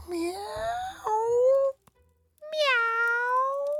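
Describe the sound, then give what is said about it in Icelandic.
A cat meows in a churchyard, giving long, wailing meows. The first meow is drawn out and breaks partway through, and a second clear meow follows after a short silence. “Ég man ekkert eftir mér fyrir ég vakna við að heyra kött mjálma.”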